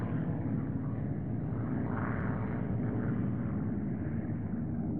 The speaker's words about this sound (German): Die Flieger, die am Himmel rumorten, waren die Flieger der anderen.